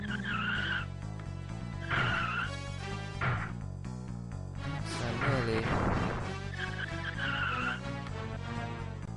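Race cars roar and skid, with tire squeals and engine noise running steadily and loudly through the whole stretch.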